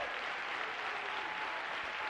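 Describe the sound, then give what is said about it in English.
Congregation applauding in a church: soft, steady clapping with an even density from start to finish and no speech over it. “I want you to give them a round of applause.”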